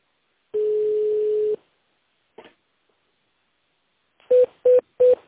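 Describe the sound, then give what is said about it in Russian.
Telephone keypad tones in an automated phone menu: one long steady beep, a brief faint click, then three short, evenly spaced beeps, each alone against silence. “Для соединения с отделом продаж нажмите 1. Для соединения с бухгалтерией нажмите 2. Для отправки факса нажмите 3.”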